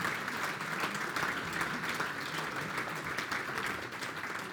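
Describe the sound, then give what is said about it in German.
Audience applause welcoming a group on stage, a thick, continuous clatter of many hands at a constant level throughout. “So, jetzt nochmal dicken Applaus.”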